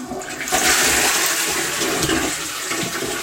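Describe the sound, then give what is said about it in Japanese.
A toilet flushing, with a loud, steady rush of water that swells early and then holds at a constant roar for about three seconds, with no voices over it. “ちょっとトイレの水を流すので、ちょっと音量注意で多分うるさいと思うので、すいません、流します。”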